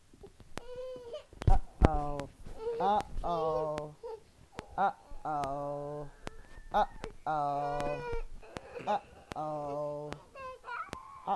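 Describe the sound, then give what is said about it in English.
A baby fussing and crying, with repeated whiny, wavering cries and short whimpers in uneven bursts, fairly faint throughout. “Why you fussing at mama?”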